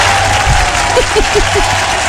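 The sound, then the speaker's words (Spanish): An audience of mothers applauds together in a steady, dense clatter of clapping at an even level, with a few faint voices over it. “entre todas nos vamos a dar un aplauso, ¿les parece?”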